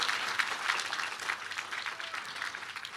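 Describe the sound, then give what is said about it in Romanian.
Congregation applause at a church service after a round of singing: many hands clap in a dense, even patter, with a few sharper individual claps standing out, sustained throughout. “haideți acum să aplaudăm o dată pentru regele nostru”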